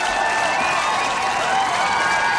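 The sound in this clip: Concert crowd at Avalon cheering and applauding as Blur return to the stage for an encore, a dense, steady roar of voices and clapping that holds level for the whole clip.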